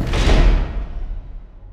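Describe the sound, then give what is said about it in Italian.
A door slams shut by the wind, giving a single heavy boom with a deep thud that rumbles and fades away over about a second and a half, on its own. “il vento fece chiudere la porta, lasciandola anche più al buio di prima.”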